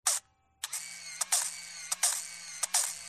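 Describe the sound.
Camera mechanisms click and ratchet as cameras are checked early in the morning: a series of faint, sharp clicks with rasping winding sounds in between, in an uneven rhythm.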